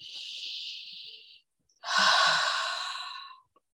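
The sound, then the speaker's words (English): A deep breath in during a guided breathing pause: a steady, airy inhale of about a second and a half, a brief silence, then a louder, fuller sighing exhale lasting almost two seconds. No talk is heard. “Breathe in here.”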